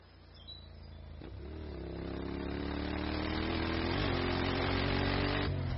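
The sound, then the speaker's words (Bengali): A motorbike engine drones steadily as it rides beside a river and over a concrete bridge. Its low, even hum grows gradually louder from start to finish. “অর্জুনের লাল motorbike করলা নদীর পাশ দিয়ে কংক্রিটের bridge পেরিয়ে বাবুপাড়ায় যখন ঢুকল”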